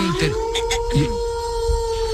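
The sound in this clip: Wolf howling heard as a long, steady, drawn-out tone that holds across the whole moment while people talk over it.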